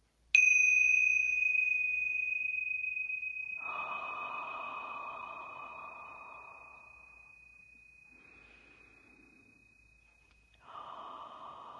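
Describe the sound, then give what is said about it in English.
Deep, slow breaths taken during a relaxation exercise, heard as a few soft, airy inhales and exhales. A long, clear bell tone rings steadily beneath them and slowly fades. “And then I'll have you just take 3 deep breaths with me and just relax.”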